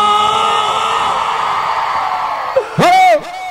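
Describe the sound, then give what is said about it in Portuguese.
An audience shouts at a live music show in a sustained, blended roar of voices that gradually thins, then a loud whooping yell with sharply swooping pitch bursts out near the end. “Gostou, dá um grito!”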